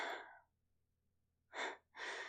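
Deep breathing from two people taking a big breath together: one soft breath fades at the start, then after a pause come two short, airy breaths in quick succession, all quiet and breathy.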